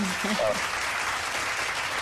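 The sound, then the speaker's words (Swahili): Audience applause, a dense, steady wash of clapping that holds at an even level for the whole stretch, with a brief voice near the start. “Naomba makofi yangu. Ah, mna makofi hapa.”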